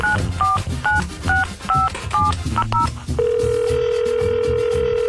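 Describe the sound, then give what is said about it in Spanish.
A telephone call being placed during a radio call-in contest: a quick run of touch-tone keypad beeps, each a short two-note chirp, followed by a loud, steady, unbroken ringing tone that continues to the end. “Vamos a marcarle.”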